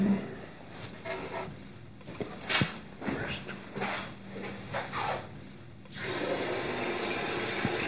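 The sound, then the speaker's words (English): Tap water runs as someone washes their hands. Soft, scattered splashes and breaths come first, then a loud, steady rush of running water fills the final two seconds. “He's washing his hands.”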